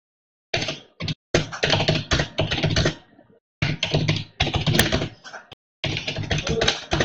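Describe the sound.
Typing on a computer keyboard while writing a message: fast, dense runs of plastic key clicks in several bursts, broken by short silent pauses.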